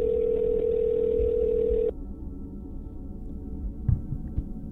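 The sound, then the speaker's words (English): A telephone ringing tone while placing a call: one steady, mid-pitched tone holds for about two seconds, then cuts off, leaving low line hiss with a few faint clicks. “This is what happens when I start fiddling around with the phone. So now we're calling Jason.”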